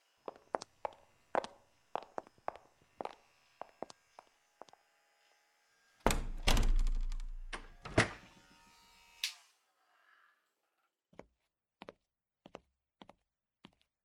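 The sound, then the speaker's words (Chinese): A shop door being closed: scattered clicks and taps lead into a loud rattling rumble of about two seconds that ends with a thud. A few more faint taps follow. “你帮我把店门关上后，也一起进来吧”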